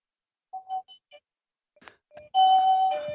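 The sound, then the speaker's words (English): A home doorbell rings. After a few faint clicks and knocks, a loud, sustained electronic chime sounds near the end. “Apparently, Avon calling. That's our doorbell.”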